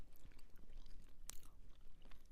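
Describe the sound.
Crunchy chewing of a piece of chocolate with nuts, a quiet, steady stream of crackling bites and mastication with no talk over it.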